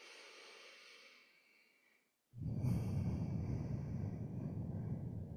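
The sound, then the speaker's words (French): Breathing in and out through the nose during a guided breathing exercise: a soft, fading breath drops to a moment of silence, then a long, loud, airy rush of breath continues to the end. “Vous n'avez rien à faire dans cet espace que d'inspirer, d'expirer par le nez.”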